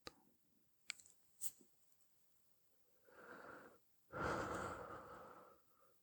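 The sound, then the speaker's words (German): A small breath drawn from the upper chest by someone with a slightly blocked nose: two soft, airy breaths, the second longer and a little stronger, after a few faint clicks in otherwise near silence. “Ah ja, und da kam schon ein kleiner Atemzug und der kam jetzt quasi ganz oben aus der Brust.”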